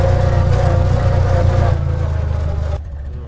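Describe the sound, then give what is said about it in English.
Engine of a 1927 Dodge Brothers Tourer car driving, a steady loud mid-pitched drone and rumble that eases off and drops in level near the end. “We've just been for a drive, Dodge Brothers. 1927 Tourer.”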